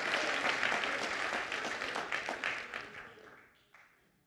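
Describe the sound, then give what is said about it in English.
An audience claps loudly in sustained applause of dense, overlapping hand claps that gradually thin out and fade toward the end, with a few last scattered claps. “Somebody clap your hands like you're learning something. Come on, somebody clap real loud clap like you're learning something.”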